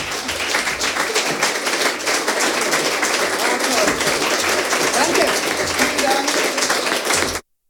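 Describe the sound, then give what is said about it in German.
Standing ovation for the host of a literary festival, dense and sustained applause that holds at an even level throughout, with some voices mixed in before it cuts off. “Ein Standing Ovation für die Moderatorin Bettina Böttinger.”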